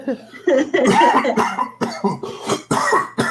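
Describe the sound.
Phlegmy coughing in a rapid fit, with many loud, harsh bursts that have a throaty, voiced edge, packed closely together over about three seconds.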